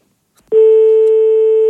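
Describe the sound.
A telephone tone after a call is hung up: a loud, steady electronic tone that starts abruptly after a brief quiet and holds unbroken to the end.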